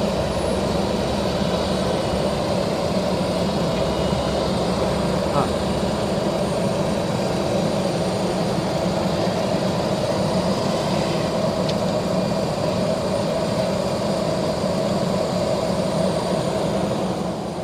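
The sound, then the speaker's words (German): An airplane that has just landed taxis with its engines running, giving a continuous loud droning rumble and hiss that holds steady without any clear rise or fall. “jetzt ist sie gerade gelandet. Da hinten. Genau, jetzt Das ist für die Maschine, ne? Genau, für die Maschine ist das. Die rollt jetzt gleich ab und rollt dann hierher.”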